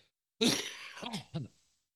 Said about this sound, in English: Phlegm. I have some damn phlegm in my throat.